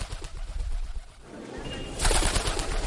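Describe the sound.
A voice imitates a dove's cooing: a run of low, throaty, pulsing coos over a noisy background, growing louder in the final second.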